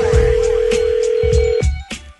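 A telephone rings with a steady electronic tone that holds for about a second and a half and then cuts off, with a few low rhythmic thumps running underneath.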